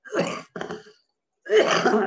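Throat clearing in three rough, raspy bursts: two short ones in quick succession, a brief pause, then a longer, louder final clear.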